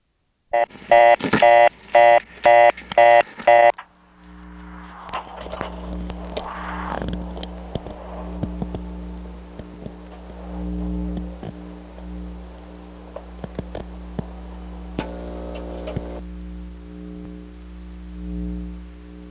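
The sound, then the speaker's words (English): Telephone calls through a step-by-step switching exchange in 1977: a rapid series of loud, even tone bursts, then a steady hum on the line broken by many sharp switching clicks. “Tape 1068, or Atlanta 68, contains calls made from the 5-2 step in August of 1977. This is one of the last 5-2 step tapes made shortly before the cutover. The dialing is not documented.”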